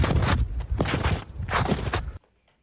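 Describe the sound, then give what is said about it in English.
Crunching footsteps of someone walking in snow, a few loud, gritty steps in close succession that stop abruptly, leaving near silence at the end. “That is, in fact, the sound of somebody walking in snow.”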